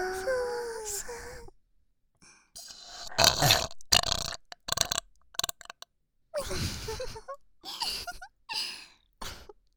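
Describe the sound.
A person burping loudly, with a few deep, croaking, voiced belches separated by short gaps and breathy sounds.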